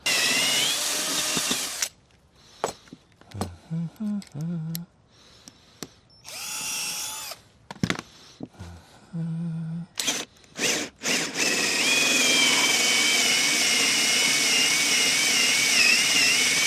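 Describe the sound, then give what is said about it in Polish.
A power drill bores a 27 mm hole into soft, partly rotted wood, running in several short whining bursts separated by pauses, then holding one long, loud, steady whine to the end. “Muszę pamiętać, że gdzieś trochę wyżej muszę tutaj wiercić ten otwór.”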